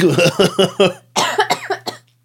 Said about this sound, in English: It is making me cough because it hit me right in the back of the throat.